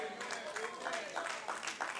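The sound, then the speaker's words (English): Sparse, half-hearted clapping from a church audience, a few faint scattered claps mixed with low voices. “Thank you for the sad clap.”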